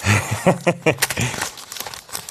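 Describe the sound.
Paper tears and crinkles as an envelope is ripped open, with a few sharp rips in quick succession mixed with people talking.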